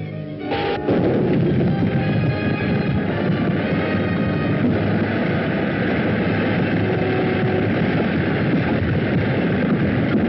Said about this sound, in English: Give it a blast. I can't get at him behind that rock. Then hit the cliff above him and bring it down on him.